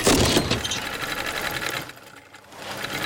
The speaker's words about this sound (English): Is that sewing? Stitch!